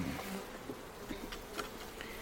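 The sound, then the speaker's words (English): Faint, steady buzzing of many honeybees inside an open hive during an inspection, a low droning hum with a few brief louder passes as individual bees fly close. “Well, I think there's a lot of bees in here.”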